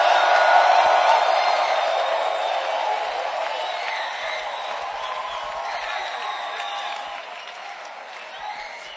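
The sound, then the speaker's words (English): A church audience claps and shouts praise, a dense, sustained wash of applause with crowd voices mixed in that stays loud at first and fades gradually over about nine seconds. “Clap your hands for Jesus and give the Lord a shout.”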